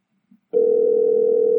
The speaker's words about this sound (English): I'm going to hit this button right here, and we're going to see if he answers the phone.